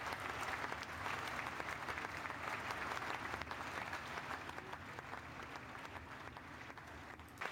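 Sustained applause played from a soundboard, a dense, even clatter of many clapping hands that holds steady and tapers slightly near the end.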